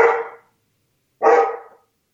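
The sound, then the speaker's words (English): Two loud, deep barks from a female 100-pound Akita dog, separated by a second of silence; each bark is a full-bodied, throaty burst with no talking. “It's a really big dog. If you've not met my co-host, this is Emmy, 100-pound Akita. Okay. So when she barks, that's it.”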